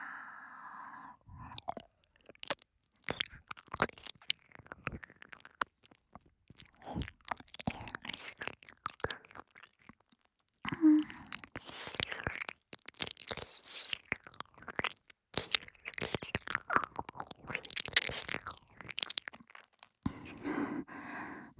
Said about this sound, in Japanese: お兄さんのお耳、舐めさせていただきますわね